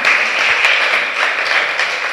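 A church audience claps and applauds, a steady, dense wash of many hands clapping together at an even, fairly loud level throughout.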